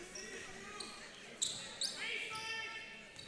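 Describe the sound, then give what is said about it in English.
A basketball is dribbled on the court during a boys' high school game, a few sharp bounces under a commentator's continuous talk. “Rice just dribbling out top now.”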